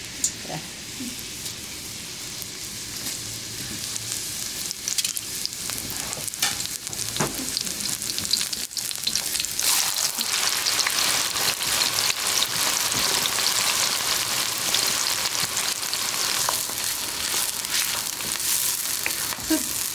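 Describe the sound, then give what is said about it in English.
Onion sizzling in hot cooking oil, a steady, dense crackle of spitting and popping that runs unbroken and fairly loud throughout, with no voices over it. “So if you don't have cumin, you can check with onion, and that's how you know that it's good temperature. See that sound?”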